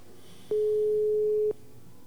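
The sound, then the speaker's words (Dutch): A telephone ringing tone plays while an outgoing call is placed: a single steady, mid-pitched electronic tone lasting about one second, then silence. “zullen we haar maar snel eh, gaan bellen?”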